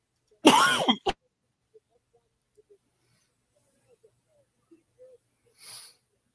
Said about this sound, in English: You right there, bud? Yeah, choking on my cinnamon heart.